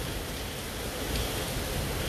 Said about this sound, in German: Man sieht hier gerade so eine Palme im Hintergrund, die im Wind weht vom Regen.